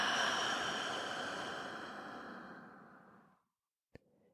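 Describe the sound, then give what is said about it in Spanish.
A deep exhale through the mouth during a guided breathing exercise: a single long, breathy rush of air that starts strong and slowly fades over about three seconds, followed by a brief sharp click. “Y exhalamos por la boca y soltamos el aire.”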